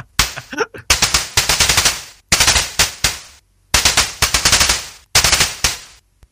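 Jingle from the Atari 7800 homebrew game Armor Attack 2: harsh, noisy electronic bursts fired in rapid rattling runs like machine-gun fire, grouped into a few loud sections split by brief pauses, opening with some short sweeping tones.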